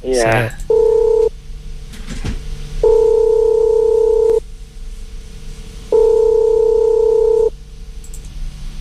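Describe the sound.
Telephone call tones sound as a number is dialed: three steady, mid-pitched electronic tone bursts, the first short and the next two longer, separated by pauses over a faint continuous hum.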